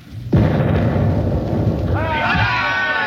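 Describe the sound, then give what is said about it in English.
A ship's cannon fires a round at another ship: one sudden loud boom followed by a sustained roaring rumble, with voices rising over the noise toward the end. “Now, a shot. I'll give them a round directly amidships. Right. More right. More. There. All set. Fire!”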